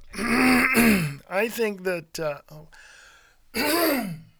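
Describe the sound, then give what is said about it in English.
Someone clears phlegm from their throat in a few rough, voiced, rasping bursts, loud and close. A pause follows, then one final longer, gravelly clearing. “pardon me, phlegm.”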